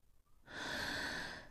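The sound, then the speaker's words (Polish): A man breathes heavily: one long, rushing, hissing breath, soft overall, that swells, holds steady and then fades. “Chińczyk oddychał ciężko i nic nie odpowiadał.”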